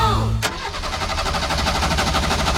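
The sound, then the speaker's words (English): A car engine that is out of fuel cranks repeatedly and struggles to start, giving a loud, rapid, rhythmic churning that keeps going without catching. “Someone's out of fuel. Ooh. And he's struggling to start also.”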